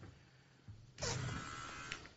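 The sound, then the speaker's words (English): A Manscaped electric body trimmer with a 7,000 RPM motor switches on after faint handling noise, giving a steady high buzz that holds at an even level to the end. “It's quiet, and it's got an LED light, which illuminates the grooming area for a closer, more precise trim. The 7,000 RPM motor with quiet stroke technology, yeah, it's good.”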